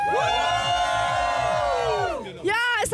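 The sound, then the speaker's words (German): Crowd cheering and whooping at a hot outdoor summer festival by a lake in Cologne: loud, sustained shouting voices for about two seconds, a brief dip, then a fresh burst of yelling. “Also ihr hört's, die Stimmung hier beim Rainbow Festival in Köln am Fühlinger See ist richtig klasse.”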